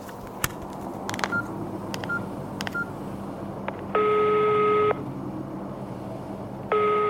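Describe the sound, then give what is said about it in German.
A telephone number is dialed: a few short keypad beeps mixed with faint clicks, then two longer, louder steady tones, the second starting near the end. “Apropos vergessen, da fällt mir ein, ich wollte doch Hanna anrufen. Das mache ich am besten mal gleich.”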